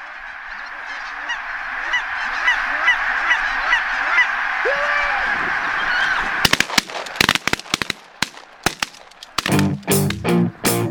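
A flock of geese honks in a dense, continuous chorus of overlapping calls. It is followed by a series of sharp, loud gunshot-like bangs in irregular bursts.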